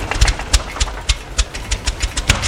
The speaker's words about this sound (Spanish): Tu bote está matándome. El motor número uno está inservible y hay una fuga en el hidráulico.